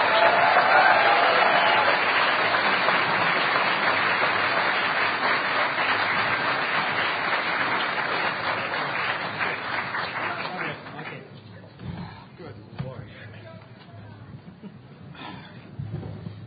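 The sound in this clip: Audience applause at a conference for the social engineering panel: loud, sustained crowd clapping that gradually fades, with voices heard as it dies away.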